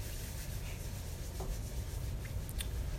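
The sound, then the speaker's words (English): Hands rubbing together to warm them during a relaxation class, heard as a steady, soft, continuous rasp of skin on skin with no talk. “Rub our hands together until they become warm.”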